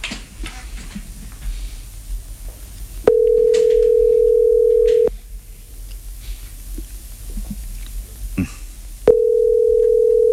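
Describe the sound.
Ringback tone on an outgoing telephone call: two long, steady mid-pitched tones, each about two seconds, separated by a quiet gap of faint background noise. The second tone is cut off at the end.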